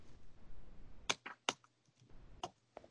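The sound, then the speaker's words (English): Keys on a computer keyboard are tapped in a few sparse, crisp clicks at an uneven pace, faint against a quiet hiss. “I can type it in here. Let me see if my mic will pick this up.”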